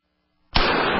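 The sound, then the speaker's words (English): .44 Magnum gunshot: one sudden, loud blast breaks the silence and leaves a dense, noisy roar that holds steady to the end. “That's the sound of a .44 Magnum and Traumamax.”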